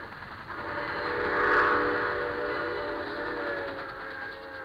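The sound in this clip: A steam locomotive's whistle sounds as a sustained, steady tone over a low rail rumble, swelling slightly in loudness early on and then holding with a gradual fade, with no voices.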